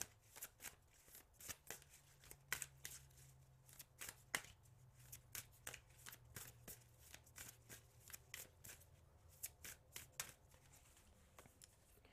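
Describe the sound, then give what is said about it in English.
Cards are shuffled and a card is pulled from a deck, making many quick, crisp snaps and riffles in an uneven rhythm over a faint low hum. “So we're gonna pull a card”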